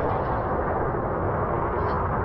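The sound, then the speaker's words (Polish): An explosion in an animated action series roars as a dense, loud, continuous rumble for the whole clip, with no sharp onset. “Wybuch.”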